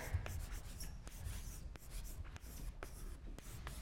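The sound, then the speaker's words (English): Marker or chalk writing on a board during a lecture: a few quick, scratchy strokes and taps in an irregular rhythm, fairly quiet, with no voices. “I want to emphasize it. I'll write this again.”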